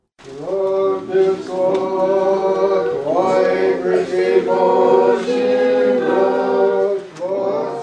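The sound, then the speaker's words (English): An audience sings Orthodox Christmas hymns at the St. Sergis and Herman Church in Nanwalik, Alaska, their voices blending in full, sustained harmony that continues loudly throughout with only brief dips between phrases. “That's the sound of people singing in celebration of Orthodox Christmas at the St. Sergis and Herman Church in Nanwalik.”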